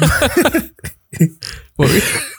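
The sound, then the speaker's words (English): Harsh coughing and throat-clearing come as a few rough, breathy bursts broken by short silences. The longest, loudest burst comes at the end. “We keep both coughing off camera because we clearly hadn't been talking before we did this to anybody.”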